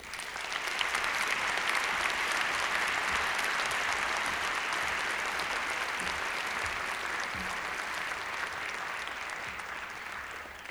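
An audience claps warmly to welcome two performers on stage at a folk music concert. The applause is full and sustained for around ten seconds, staying even and easing slightly toward the end.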